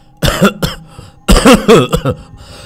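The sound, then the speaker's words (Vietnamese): A man coughs hard and chokes on water, performed by a voice imitating the sound: a few harsh, voiced coughing bursts in two clusters, with a short pause between them, loud and with no other sound. “nghe thấy nó nói thế thì ho sù sụ, sặc nước cả lên mũi.”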